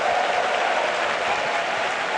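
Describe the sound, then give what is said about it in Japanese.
A huge racecourse crowd of about 45,000 at Kyoto Racecourse applauds and roars on a clear autumn afternoon before a big fillies' race, a loud, unbroken wall of clapping and crowd noise with no clear peaks. “その前に大きな拍手歓声、今カウントダウンも引かれました。”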